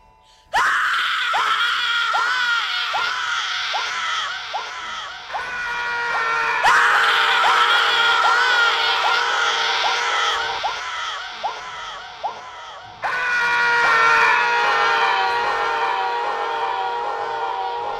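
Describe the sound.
A crowd of people screams in agony, with loud, high, layered cries that start as a run of short shrieks and swell into sustained wailing in several surges.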